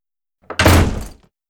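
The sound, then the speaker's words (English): A door slamming shut with one heavy, low thud that decays quickly with a short rattle, then silence. “Slam.”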